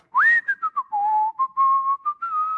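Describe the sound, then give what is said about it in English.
A man whistles the one tune he always whistled, a clear solo melody of many short and held notes that step down and then level off, with no talk. “he only whistled one thing. I think I can do it. I think I can remember it.”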